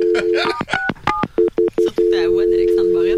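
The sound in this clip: A telephone number being dialed at random produces a quick run of short electronic keypad beeps, bracketed by steadier sustained tones, with a voice coming in toward the end.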